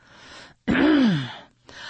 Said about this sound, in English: cleared her throat.